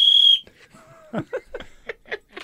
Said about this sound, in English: Now, I have this whistle because I spent the weekend coaching